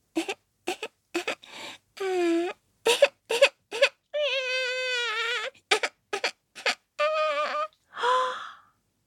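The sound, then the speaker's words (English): A little baby crying: short, whimpering sobs alternate with longer, wavering wails in an uneven pattern, heard alone against silence. “It was the sound of her own little baby crying.”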